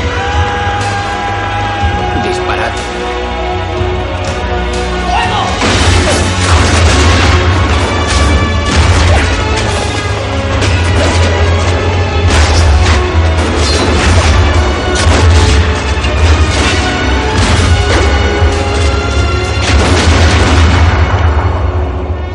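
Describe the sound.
A volley of musket fire from guards shooting on a king's order in a smoke-filled gallery comes through as a loud, dense roar of cracks and booms lasting about twenty seconds, with music playing underneath.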